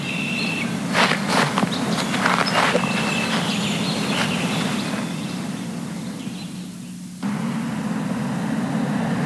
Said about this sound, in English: Not wanting to be here when Sharon came back, I decided to take a walk downtown.